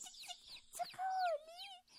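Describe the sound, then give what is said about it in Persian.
Young chicks chirping faintly, with a few thin, high peeps and one longer drawn-out note that slides slightly downward, with no voices. “صدای چند تا جوجه مرغ بشنم. صبر کن از اون طرف میاد.”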